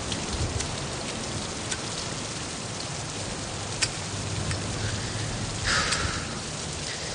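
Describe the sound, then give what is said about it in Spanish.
Heavy rain falls in a steady, dense hiss with no voices, broken only by a brief faint click partway through. “John se marcha caminando bajo la lluvia y pasa de largo junto al taxi de Chas, que le espera en la entrada.”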